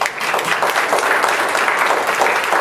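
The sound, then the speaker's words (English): Applause from a church audience during a service: dense, steady clapping at an even, fairly loud level, continuing unbroken from start to finish with no talking over it. “Give the Lord a hand of”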